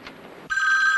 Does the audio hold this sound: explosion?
no